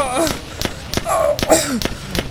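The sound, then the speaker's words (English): Gunshots ring out amid a frantic confrontation, several sharp, loud cracks fired at a fairly even pace, with agitated voices shouting between and over them. “Oh no, you shot me!”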